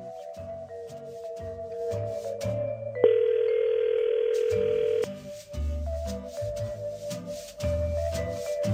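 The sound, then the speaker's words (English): Telephone line tones as a contest call is dialed: a steady dial tone, then a louder, brighter tone lasting about two seconds, over background music. “We are dialing right now.”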